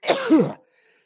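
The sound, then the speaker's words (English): A single short sneeze, a loud breathy burst with a brief pitched edge that cuts off sharply into quiet. “bless you.”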